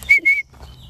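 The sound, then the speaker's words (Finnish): A person whistles to call roe deer, two steady high notes of similar length in quick succession, followed by quiet low background sound. “Mites niitä kutsutaan? Viheltämällä. No, yritä sitä uudestaan.”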